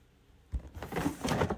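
A drawer being opened: a soft thump, then a short, quiet sliding scrape with faint rattling as it pulls out.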